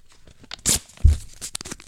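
A paper envelope is torn open in a few short, sharp rips and crinkles, with one crisp high tear followed by a duller thud-like rip, then faint rustling.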